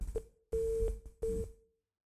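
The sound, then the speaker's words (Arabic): Busy tone after a caller's phone line cuts off on a radio call-in show: a low, steady tone that comes in a few on-off bursts over faint hiss. “انقطع اتصال الاخ صالح.”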